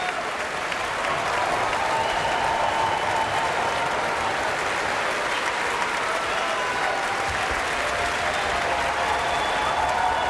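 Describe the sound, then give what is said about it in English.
Sustained applause as a concert audience gives the Philadelphia Orchestra an ovation after an all-Russian program ending with a Shostakovich symphony under a Finnish conductor; dense, loud, steady clapping with no break throughout. “Both the music and the musicians are getting a wholehearted ovation from the audience.”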